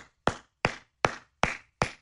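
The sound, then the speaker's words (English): A single man stands and claps five times, each clap sharp and loud, spaced at a slow, even beat with silence between them. “pardon me while I stand and applaud.”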